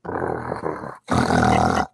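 A person imitates a dog growling at night with two long, loud, rough growls separated by a brief pause.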